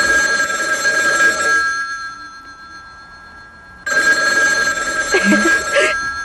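Telephone ringing with an incoming call: two long, loud, steady rings separated by a pause of about two seconds, with no talk over them.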